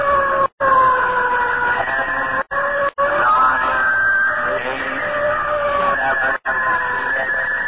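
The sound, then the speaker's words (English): A fire warning siren sounds before a bomb test firing: a loud, sustained wailing tone with slight shifts in pitch, cut by a few brief breaks, with no talk over it. “Sound fire warning.”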